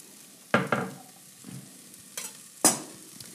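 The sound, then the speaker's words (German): Garlic frying in oil in a pan while being stirred, with a few sharp scraping stir bursts over a quiet, steady sizzle. “Jetzt geben wir den Knoblauch dazu. Join the party. So. Rein damit.”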